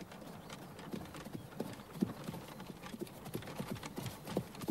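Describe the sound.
Horse hooves clip-clopping as the horse pulls a cart into a village, a steady, uneven patter of hoofbeats that continues throughout at moderate loudness.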